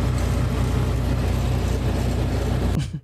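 Steady low engine and road drone from inside a car being driven home in Mesa, holding an even level before cutting out abruptly near the end.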